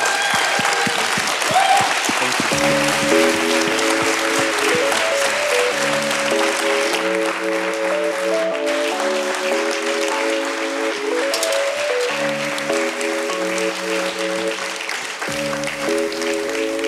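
A church audience applauds and cheers to welcome a visiting pastor to the stage. The clapping is dense and continuous, with keyboard chords playing underneath throughout.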